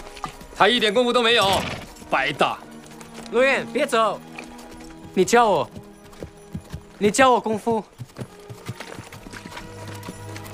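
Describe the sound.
Horse hooves clip-clopping as a rider sits on horseback, a repeated clopping that runs beneath people talking throughout.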